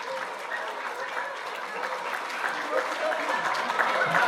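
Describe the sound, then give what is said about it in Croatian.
Applause and cheering rise for the girls at a children's sports and strength contest. The steady clapping grows gradually louder toward the end, and voices are heard among it. “Bravo, idemo navijat malo za djevojke. Idemo još. Snažnije malo.”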